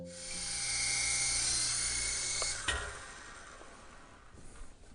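A camera drone flies with a high, buzzing whine of spinning propellers and steady tonal harmonics, then cuts off with a sharp clunk midway as it lands, leaving faint rustling and handling noise.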